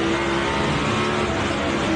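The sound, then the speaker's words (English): Roaring engine of a Toyota Camry NASCAR race car, a steady, loud, unbroken drone that holds for the full two seconds with no voices. “This is a Camry. This is a Camry on NASCAR.”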